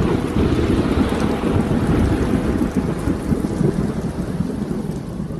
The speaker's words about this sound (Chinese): 台风就卷积着暴雨呼啸而来了。